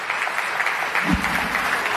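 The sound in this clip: Applause from an audience of business executives at a conference, a moderately loud, even patter of many hands that continues steadily from start to finish.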